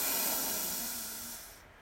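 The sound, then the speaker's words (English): A single deep breath during a guided relaxation exercise, heard as a long, soft, airy hiss that holds steady and then fades away toward the end. “Last deep breath in. Deep breath in.”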